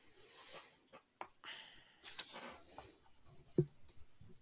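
Quiet, scratchy drawing strokes come in short, irregular bursts, with a soft knock near the end.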